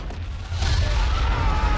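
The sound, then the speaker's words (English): A volcano erupting and spewing black ash makes a loud, deep rumbling roar. The roar swells after about half a second, then holds steady, with a broad hiss over the heavy low-end rumble. “The volcano erupts, spewing out enormous amounts of black ash into the sky.”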